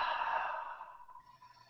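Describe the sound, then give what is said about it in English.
Slow, deep exhale from belly breathing: one long, soft, breathy whoosh that gradually fades. It is faint and heard alone, with no talking. “So deep breath in, belly breath, bring it up. 4, 5, hold for 3, and out for 7.”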